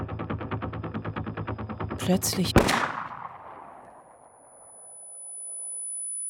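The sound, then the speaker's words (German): Gunfire in a drama as police shoot a man from behind: a sharp, loud crack stands out after a short burst of noise, then rings away into a long, slowly fading tail. “Plötzlich fällt er. Polizisten sind da, haben sich von hinten angeschlichen, ihn erschossen.”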